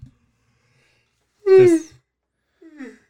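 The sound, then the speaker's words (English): A person yawns: one drawn-out voiced yawn whose pitch sinks slightly, followed shortly after by a shorter, quieter vocal sound. “excuse me, I yawned”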